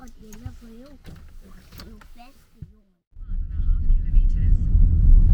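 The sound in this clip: Car driving, its steady low road-and-engine rumble swelling in and holding after a voice speaks briefly at the start.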